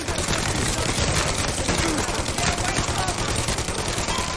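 Gunfire rattles in a radio drama: a continuous, loud barrage of rapid shots with no break from start to finish.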